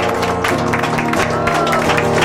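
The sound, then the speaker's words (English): An audience claps in praise during a church worship service. The applause is dense, loud and continuous, blended with sustained tones and voices. “clap of praise. Thank you, Jesus. Hallelujah.”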